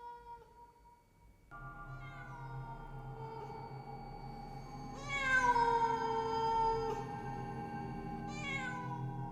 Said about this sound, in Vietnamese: Ác linh rít lên the thé the thé. Vào trong tai của những thường nhân ở bên kia đang hoảng loạn, thì bọn họ nghe giống như là tiếng mèo đang kêu vậy.